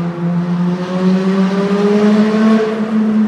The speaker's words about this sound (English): He'll throw another. He's got another rev to throw.